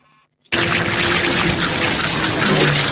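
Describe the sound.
Water poured onto pebbles, rushing and splashing as a loud, steady wash that starts abruptly after a brief quiet moment and holds without a break to the end.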